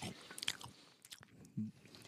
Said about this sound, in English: They taste like 100% evil. Yeah, these are good. I love all this cheese in my mouth.